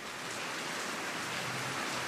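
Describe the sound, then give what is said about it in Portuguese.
Heavy afternoon rain pours down in São Paulo, a dense, steady hiss that stays even and loud from start to end, with no voices over it. “A chuva já está caindo forte de novo desde ontem. Então, essa surpresa no meio da tarde é a chuva caindo aqui”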